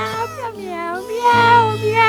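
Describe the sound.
A person imitates a cat's meow with their voice, producing a drawn-out, whiny vocal sound with a wavering, sliding pitch that grows louder in its second half.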